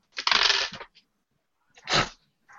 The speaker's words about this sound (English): All right, dice. Doing great. One more. Just roll 1.